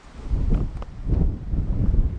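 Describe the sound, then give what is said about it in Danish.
Wind blows across a hill by a church in northern Denmark as a steady, gusty low rumble that swells and eases over the whole stretch, with no voices. “Det blæser godt hen over den bakke, hvorpå Bjergby Kirke ligger.”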